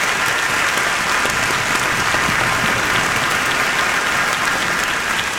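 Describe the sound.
Applause from a church audience during a clap offering: a dense, steady wash of many hands clapping at once, loud and unbroken from start to end, with no single claps standing out.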